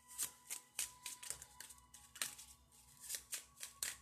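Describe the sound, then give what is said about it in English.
Oracle love cards being handled and shuffled: a quiet series of many crisp slaps and riffling snaps in an uneven rhythm, over a faint steady hum. “Let me get my love cards and then we're going to close this right on out.”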